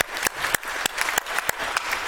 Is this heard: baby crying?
no